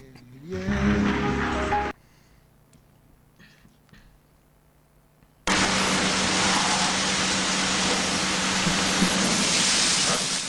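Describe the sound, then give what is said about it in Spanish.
Loud rushing spray and scrubbing noise from an automatic car wash tunnel cleaning a dirty car: a short burst, a quieter pause, then a long sustained wash that continues to the end. “Hemos visto que estaba lloviendo, tenemos el coche sucio, así que nos vamos a ir a lavarlo a un túnel de lavado.”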